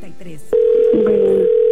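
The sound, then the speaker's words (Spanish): A telephone ringback tone on an unanswered call: one steady, mid-pitched tone starts after a brief moment of talk and holds loud to the end, with a voice faintly audible beneath it. “No nos contesta Esme.”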